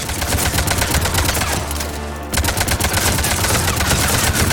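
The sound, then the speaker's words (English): Rapid automatic gunfire from a video game weapon hammers at an enemy, loud and continuous, with one brief pause midway before the dense burst of shots resumes. “I'm shooting all of these bullets at a single Banshee.”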